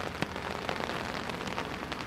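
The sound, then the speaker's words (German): Steady rain falls outdoors, a soft, even hiss of drops pattering on surfaces, with a few sharper droplet hits standing out. “Dafür mache ich mich durch den Regen auf den Weg zu Nigel Coles und Kirsten Kratz.”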